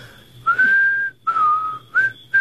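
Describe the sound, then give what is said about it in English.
A person whistles four fairly high, clear notes with short gaps between them. Each note is held steady except the brief third one, which rises slightly, and nothing else is heard. “Will you show me how to do that? What, whistle?”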